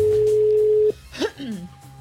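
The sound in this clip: Ringback tone on an outgoing call to a Movistar mobile number: one steady, level tone holds for just under a second, then cuts off, followed by faint voice-like sounds on the line.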